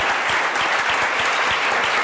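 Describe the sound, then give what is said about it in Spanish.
Dense, steady audience applause fills the studio of a Spanish comedy talk show, greeting a guest with an even roar of many hands clapping and no voices on top. “Un aplauso para Ricardo Castella.”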